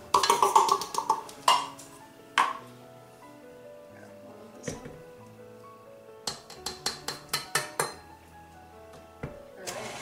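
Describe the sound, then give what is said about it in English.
Butter and brown sugar being mixed at low speed for a cookie cake, with a few bright clinks and knocks of utensils against the bowl over a soft, low hum. Clusters of sharp taps come mid-clip. “Get that butter mixed up. Alright, and now I'm going to be adding the brown sugar.”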